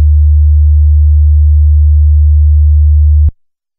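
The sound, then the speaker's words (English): A DB drag racing signal tone: a loud, steady, low-pitched pure tone holds unchanged for over three seconds, then cuts off abruptly into silence. “In a second, I'm going to play you a DB drag racing signal tone.”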